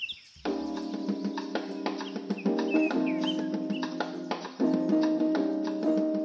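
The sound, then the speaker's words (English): Birds chirp in the shade of mango trees on a historic Brazilian coffee farm. Many overlapping calls and tweets form a dense, steady chorus, and no one speaks. “step into the shade of the mango trees, listen to the birds chirping”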